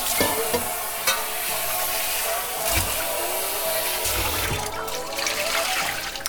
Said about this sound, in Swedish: Så sköljer vi ur den här pannan.